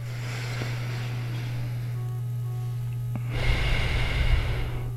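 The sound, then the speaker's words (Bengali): Slow breaths drawn in and pushed out through the nose during alternate nostril breathing, soft airy rushes with a fuller one near the end, over a constant low hum. “একটা inhale করি, right, এইভাবে, তারপর নাকটা চেপে আমরা exhale করি, তারপর এই নাক দিয়ে আবার ইনহেল হবে”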